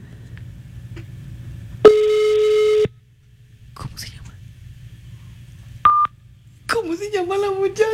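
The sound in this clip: A telephone tone after a call has been hung up: one steady buzzy tone lasting about a second, then a short higher beep, followed by a voice.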